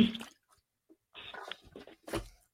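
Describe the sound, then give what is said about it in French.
A person drinking a little water and spilling some during a live session, heard as a few short wet, splashy sounds separated by silence. “Attendez, je vais boire un petit peu d'eau.”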